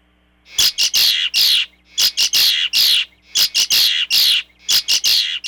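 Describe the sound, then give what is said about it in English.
A female bird's aggressive territorial song, delivered as four loud bursts of sharp, high-pitched notes, each burst a rapid cluster separated by brief pauses. “this is the one that she gives when she really wants to get somebody out of her territory, right? A much more aggressive kind of song.”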